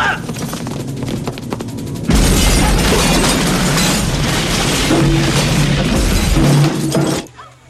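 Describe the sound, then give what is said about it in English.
A bomb goes off inside a club, a sudden loud blast that swells into a dense, roaring rumble with crackling debris. It holds for about five seconds after a stretch of sharp crackles, then drops away abruptly. “There's two of them. It's another bomb.”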